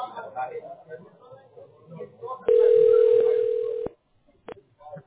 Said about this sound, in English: Now, you will hear me dialing